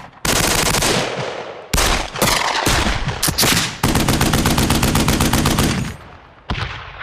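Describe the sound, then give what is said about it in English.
Gunfire from a sound effects library of revolvers, rifles, shotguns and automatic weapons. Several loud bursts of rapid automatic fire are separated by brief gaps, and no other sound is heard. “2,000 sound effects include a broad range of revolvers, rifles, shotguns, and automatic weapons of many different calibers.”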